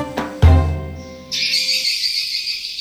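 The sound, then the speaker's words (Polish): Swiftlets, small swallow-like birds of the swift family that build nests, calling. A low tonal sound comes first, then a steady, high, buzzing chorus of chirps carries on to the end. “Instynkt Salangan każe im budować gniazda. Przypominające Europejczykowi jaskółki ptaki z rodziny jeżykowatych nie wiedzą jednak, że mimo złudnej wolności tak naprawdę są na służbie u człowieka.”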